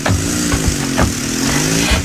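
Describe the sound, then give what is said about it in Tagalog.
A motorized tricycle drives off, its engine a loud mid-pitched buzzing drone that wavers slightly as it runs, heard alone without voices. “Aba, si Phoebe pala yung bumaba sa tricycle.”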